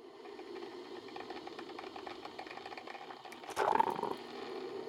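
A coffee machine runs after its button is pressed to make black coffee. A steady, buzzing motor hum holds throughout, and a louder rattling surge comes near the end.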